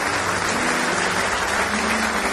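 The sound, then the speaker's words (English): Congregation clapping hands in praise during a church service, a dense, steady wash of many hands applauding at full volume with no gaps, no voices standing out. “Give the Lord one more hand clap of praise.”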